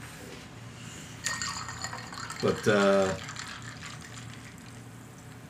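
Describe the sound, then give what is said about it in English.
A soda being opened and poured: a brief fizzing burst, then a short liquid pour, with a single spoken word heard briefly. “that was the sound of a soda,”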